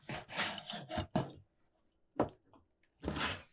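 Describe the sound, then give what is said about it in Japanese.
Knife cutting king oyster mushrooms: a few short, dry scraping strokes with brief pauses between them, heard alone with no talk. “さっき入れたエリンギは今切ってるエリンギです。”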